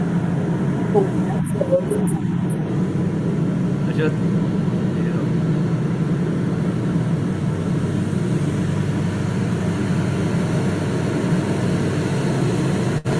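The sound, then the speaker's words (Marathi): A boat engine drones as a vessel passes close by, a tug pushing barges. The rumble is steady, loud and low, holding constant for the whole stretch with no clear rise or fall. “ही एक छोटी clip आहे, जवळून एक बोट जाते, ही आमची बोट आहे, ही दुसरी बोट चालली आमची.”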